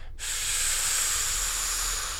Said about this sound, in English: take a big deep breath in